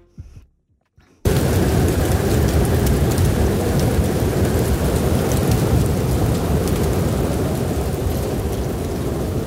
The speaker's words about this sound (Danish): Hvis du ikke kan høre det, så er det her lyden af en snestorm. Det er nemlig ved at blive koldere. Ikke lige så koldt som i den vinterstorm, vi hørte her